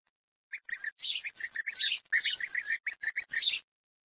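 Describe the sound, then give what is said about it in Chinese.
Young, plain-looking nestling birds chirp in a faint, rapid stream of many high, thin peeps. The chirps run continuously for about three seconds with no other sounds. “很难让人相信，眼前这些其貌不扬的雏鸟，有朝一日会变得像他们的父母一样美丽、优雅而又色彩斑斓。”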